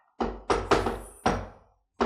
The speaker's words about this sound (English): That's the famous knock. That's shaving a haircut, two bits.